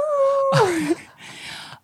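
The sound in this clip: A person's voice imitates a dog howling: a held nasal note, then a louder, higher wail that slides downward, followed by a softer breathy tail.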